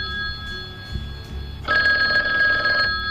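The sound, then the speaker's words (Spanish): An old landline telephone bell rings as a bright, steady metallic trill. It is quieter at first, then turns suddenly louder and fuller partway through and carries on to the end, with no voices. “Este, por ejemplo, cuando sonaba, de hecho, no sabías quién te estaba llamando. Y no había nombre en la pantalla, tenías que cogerlo sin saber si era spam o no”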